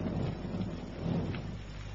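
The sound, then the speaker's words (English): Distant thunder makes a faint, deep rumble that rolls on steadily for about two seconds without sharp cracks. “Distant thunder, I think.”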